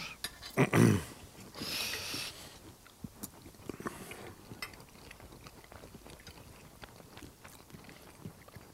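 Someone chews pâté while tasting it, producing a few louder bites near the start and then many faint, moist smacking and clicking chews in an irregular rhythm.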